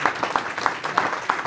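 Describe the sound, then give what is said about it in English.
Applause fills a packed commissioners' court meeting just after a vote, a steady wash of many hands clapping with a regular pulsing beat running through it. “That was the sound of a pretty packed commissioners' court meeting right after the vote was taken.”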